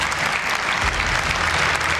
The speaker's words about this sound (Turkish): Filistinli başkan salondakiler tarafından alkışlandı.